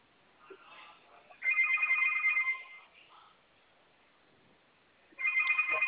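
A telephone rings in the background of a phone call: two long electronic ring bursts separated by a quieter pause, with muffled, band-limited line sound.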